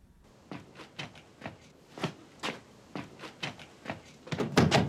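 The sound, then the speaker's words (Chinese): Knocking on a door: a series of sharp, irregular raps that grow louder and denser toward the end, with no voices. “乔哥，开门！”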